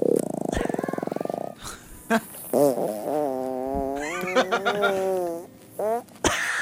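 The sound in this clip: A loud, buzzing fart sound made as a joke about someone squatting over a plate of food: a rapid, rattling pulse train lasting about a second and a half, followed by voices and snickering laughter.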